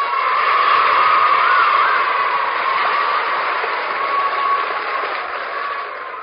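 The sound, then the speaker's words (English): A studio audience applauds with dense, steady clapping that stays loud and even, then eases slightly toward the end, with no voices. “Thank you for that nice reception, audience, and welcome to Let's Pretend.”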